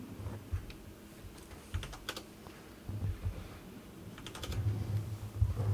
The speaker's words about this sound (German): Du schreibst /roll D20 in den Chat.